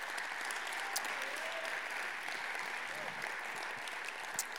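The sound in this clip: Soft, steady clapping from an audience welcomes a speaker at a Christian disability ministry gathering, with a few sharper claps standing out near the start and end.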